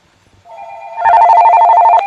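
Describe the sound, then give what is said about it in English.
Telephone ringing with an incoming call to a call-in show: a steady tone swells into a loud, rapidly trilling ring that carries on to the end. “We have a call. Let's see what caller got.”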